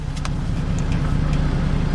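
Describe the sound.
Steady low humming and rumbling from a car's fuel pump running as the engine is started, a constant drone with a faint pulsing texture and no voices.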